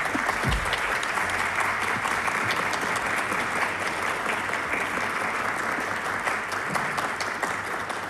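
An audience applauds steadily at a Turkish folk music concert as the choir conductor is introduced. The dense clapping holds at an even level throughout, with no talk over it.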